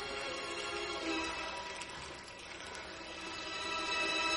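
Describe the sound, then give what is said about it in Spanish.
Hot water runs from a bathroom tap while hands coated in powdered bleach are rubbed beneath it, a faint, steady watery wash with no voices. “En su baño se echa lejía en polvo en las manos y las frota bajo el grifo de agua caliente.”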